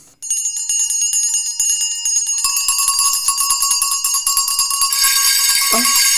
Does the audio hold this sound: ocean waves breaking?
no

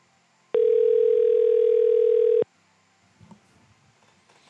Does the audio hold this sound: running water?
no

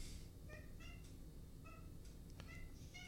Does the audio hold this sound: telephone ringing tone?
no

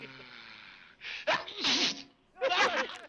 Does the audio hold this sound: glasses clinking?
no

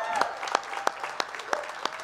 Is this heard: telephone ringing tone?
no

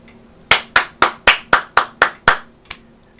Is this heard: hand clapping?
yes

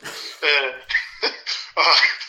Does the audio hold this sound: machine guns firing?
no

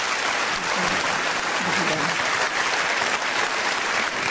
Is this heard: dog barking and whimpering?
no

